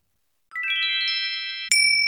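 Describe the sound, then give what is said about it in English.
A tiny Buddhist temple bell: a quick run of rising, bright tinkling notes rings on together, then a single louder, higher ding strikes and sustains to the end. “And finally, a tiny temple bell. Buddhist temples ring bells before meditation to help people pause and become mindful.”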